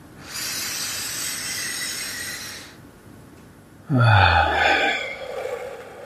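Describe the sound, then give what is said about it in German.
A deep inhale through the nose during a guided breathing exercise: a long, steady, breathy intake lasting about two seconds, then after a short quiet gap a louder, partly voiced breath. “atme dabei tief durch die Nase ein”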